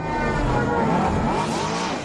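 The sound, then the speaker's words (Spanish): Flying taxis from a science fiction film give a dense, rushing roar with swirling whining tones, loud and continuous for about two seconds, with no voices. “así sonaban los taxis voladores en la película El Quinto Elemento, una de las grandes películas de ciencia ficción”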